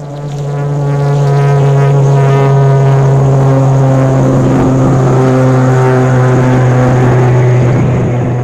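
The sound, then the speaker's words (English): Engine noise from an XF-84H turboprop aircraft: a loud, continuous drone with a strong low tonal hum and stacked harmonics. It swells in at the start, then holds steady and intense throughout. “the remarkable thing about the XF-84H that turned heads was the noise it made.”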